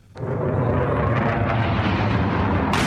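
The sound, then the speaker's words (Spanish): An F-16 fighter jet over Ankara, bombing the presidential palace, bursts in with a sudden onset and then a loud, sustained rumbling roar. A sharper hiss cuts in at the very end. “Este es el sonido del momento captado por uno de los testigos en el que un caza F-16 lanza una bomba sobre el palacio presidencial en Ankara, la capital de Turquía.”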